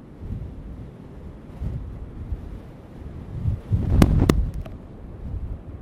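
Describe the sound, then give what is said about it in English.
Strong wind buffets the microphone over the low roar of the sea at the shore with the tide out, a steady rumbling wash that swells in gusts toward the middle, marked by a couple of sharp clicks. “No, the wind isn't too bad. It's blowing at quite a lick. You can hear the roar of the sea.”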